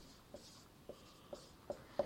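Pen writing out a profit equation by hand: five faint, short scratchy strokes spaced unevenly, quiet against a soft background hiss.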